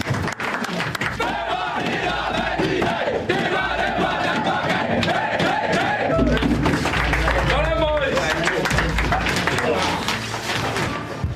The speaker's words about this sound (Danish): Og derefter, der følger man den efterfølgende jubel i omklædningsrummet. Vi kan lige prøve at høre det her.